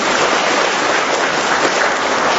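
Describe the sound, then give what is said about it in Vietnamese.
An audience applauding during a church service led by priests: a loud, dense, unbroken wash of many hands clapping at once, steady throughout. “Vậy to lên, vỗ tay to lên.”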